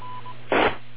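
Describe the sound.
DTMF touch-tone signalling used to connect to the KC2EHA amateur radio repeater: a single short burst of dialing tone cuts through a steady radio hiss. A faint thin tone sounds briefly beforehand.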